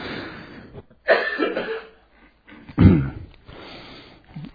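Coughing from a tickle in the throat: two harsh, loud bursts separated by a quieter stretch of breathing and rustling, with a softer sound at the very end.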